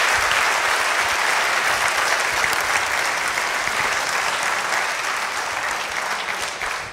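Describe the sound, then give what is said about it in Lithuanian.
A studio audience at a television show gives a welcoming round of applause for its first guest, a prime minister: dense, loud and steady, easing slightly toward the end. “Matot, kaip ploja.”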